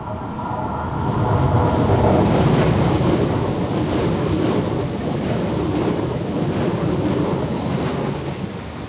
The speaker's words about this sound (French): Alors nous sommes sur la Côte d'Azur, on vient de marcher quelques minutes le long de la voie de chemin de fer depuis la gare de Roquebrune-Cap-Martin. Et là on se trouve en haut d'un petit chemin qui descend vers la mer.